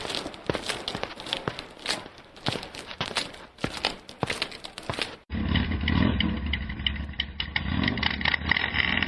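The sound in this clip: A motorcycle engine runs with a steady, dense rumble through the second half, after a stretch of sharp, irregular taps and clatter; no talking is heard.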